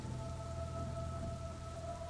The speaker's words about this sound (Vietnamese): Mưa càng lúc càng nặng hạt